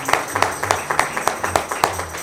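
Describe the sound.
A church audience clapping hands in praise, sharp claps landing in a steady, even rhythm that stays moderately loud, with a faint low hum underneath.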